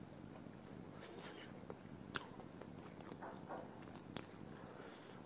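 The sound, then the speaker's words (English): Biting into homemade vegetable pops: faint crisp bites, a couple of sharper cracks, over a steady hiss. “I can guarantee you, no store-bought vegetable pops can be as tasty as this. Dear friends, but let's taste them.”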